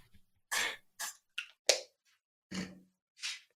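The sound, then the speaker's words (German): Someone uses an asthma inhaler spray after getting worked up, making a handful of short, quiet, breathy puffs and hisses separated by brief silences, with no talking. “ich musste gerade kurz mein Asthma-Spray nehmen, weil ich mich so aufgeregt habe”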